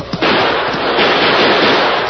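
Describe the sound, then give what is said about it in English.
Gunshots fired at the ceiling of a tunnel, chipping the stone: a sharp crack followed by a loud, dense, sustained roar of noise, with no talk. “I'm shooting at the ceiling of that tunnel. Let those rats dodge a hail of chipped stone. Here's some more!”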